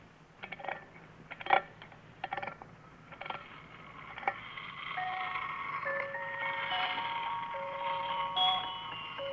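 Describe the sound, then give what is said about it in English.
A wind-up toy merry-go-round makes a few sharp clicks and ticks, then spins while playing a faint, tinkling music-box melody of high sustained notes. “First, you wind it up, and then you release the lever, and it spins around and plays music.”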